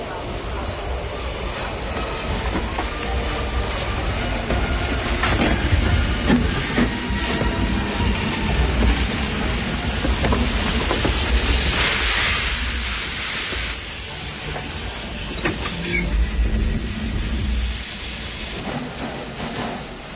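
A train transporting an aeroplane to Belgrade rumbles and rattles steadily throughout, a continuous, fairly loud rolling noise with uneven swells in intensity.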